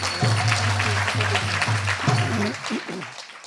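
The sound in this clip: An audience applauds to welcome a Swami, a dense steady clatter of clapping that slowly fades toward the end, with a voice underneath.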